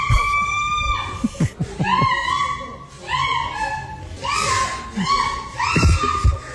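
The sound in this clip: A woman's high-pitched shrieks during sex, a rapid series of loud, piercing, strained cries with short breaks between them and no talk.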